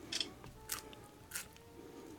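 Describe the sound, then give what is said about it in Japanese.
Three crisp crunches as someone bites into a raw Fukaya bean sprout, freshly pulled from its growing kit. The short, juicy snaps are spaced apart over a faint background. “今その栽培キットからピッて抜いていただいた一本なので、うんうんうん、ほんと収穫したてだから生でそのまま食べますけど”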